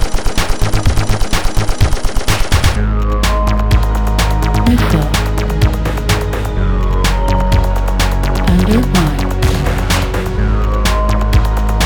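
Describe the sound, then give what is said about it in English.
Machine-gun fire: a fast, even burst of many rapid shots fills the first few seconds, then gives way to a dense, loud, continuous wash of layered noise and sustained tones. “God's rifle. Arrow 6. Laser. Machine gun.”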